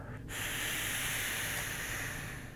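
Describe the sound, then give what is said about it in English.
A single long nasal inhale through partially closed nostrils, drawn all the way in during a breathing exercise: a steady, airy hiss that starts after a brief silent moment and stays loud and even to the end. “then partially close your nostrils and breathe in all the way. Try that again. So breathe out and then breathe in all the way”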